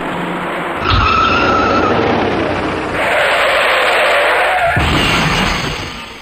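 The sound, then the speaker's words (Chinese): Tire squeal from an out-of-control white car skidding on a busy expressway bridge, a long, loud, harsh screech that shifts in pitch over steady road roar before the car hits the bridge railing. “片刻之间，这辆失控的白色小客撞向了外侧桥栏”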